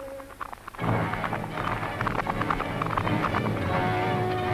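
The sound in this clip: Horses with riders setting off: after a brief quieter moment, a dense clatter of many rapid hoofbeats starts abruptly and keeps up steadily, with a low rumbling underneath.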